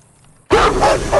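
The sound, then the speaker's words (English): A large dog barking and jumping at a screen door, heard as an abrupt, loud burst that breaks a near-silence and continues as rough barking with a heavy thudding quality. “A large dog jumps at the door.”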